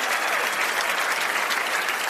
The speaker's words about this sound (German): Da sitzen einfach mal wirklich 2000 Leute und meine Gäste. Und das ist schon mal euer Applaus.